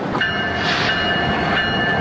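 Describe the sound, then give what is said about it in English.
A train rolling along railroad tracks: a steady, loud rumble with a thin metallic whine held throughout the short stretch. “You can hear it on its way to wherever it's being sent to. The railroad tracks are a good place to record”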